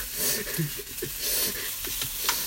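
Fried rice sizzles in a frying pan as it is stir-fried and tossed, giving a steady hiss with a few softer scraping and shuffling sounds.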